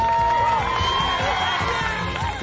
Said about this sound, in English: This is the sound of an exciting Black Friday sale.